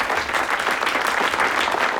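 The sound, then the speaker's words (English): Applause for a pianist as he stands up from a piano in a book-lined room at a Soviet Friendship Society gathering: dense, steady clapping from a small audience that carries on throughout. “A man with thinning hair leads applause for David as he stands up from a piano.”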